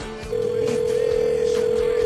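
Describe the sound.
A steady telephone tone begins after a short pause and holds at one even pitch to the end, heard as someone places a call to friends, with faint background sound underneath.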